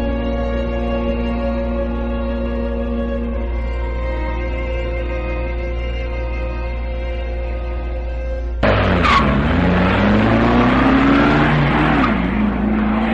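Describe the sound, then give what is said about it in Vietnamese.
Car engine idles with a steady low hum for several seconds, then abruptly revs and pulls away with a loud screech of tires that climbs in pitch as it departs. “Không rời chiếc xe cho tới khi nó khuất hẳn sau chỗ ngoặt.”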